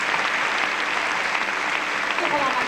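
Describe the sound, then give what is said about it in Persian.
An audience applauds a singer after a performance, a steady wash of dense clapping that holds at a fairly even level throughout with no clear breaks. “به افتخار شما دست می‌زنم”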